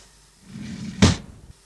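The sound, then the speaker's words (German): A studio door being opened, a soft rustling scrape that builds and then a single sharp knock-like thud near the middle, fading quickly to quiet. “Mach die Tür auf, bitte.”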